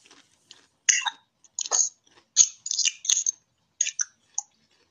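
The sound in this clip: Someone chews and crunches chocolate. Many short, crisp, moist crunching bursts come in irregular clusters, fairly quiet, with no talking between them.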